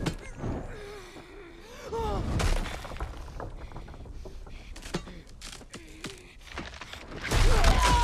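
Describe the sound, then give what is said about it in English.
A building collapsing in snow, with debris scattering: loud crashing, shattering bursts rise to heavy impacts near the start and again at the end, with scattered clattering fragments in between. “The building collapses, and debris scatters through the snow.”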